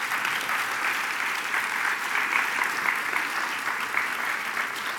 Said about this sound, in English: So another round of applause for Marianne.